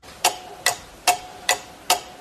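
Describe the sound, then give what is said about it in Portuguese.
A clock ticks in a steady, even rhythm: five crisp, sharp ticks spaced evenly, each a short bright click over a quiet background with a faint steady hum. “programa da Dirce, o relógio tá indo, né? Tá indo, quase pra nós ir embora, ó.”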